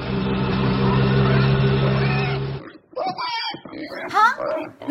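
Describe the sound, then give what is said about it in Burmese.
Pigs grunt and oink in a village scene, with short, uneven snorting bursts after a steady droning passage, and people talking over them. “ဝက်တွေအများကြီးတဲလာတယ်ဟေ့”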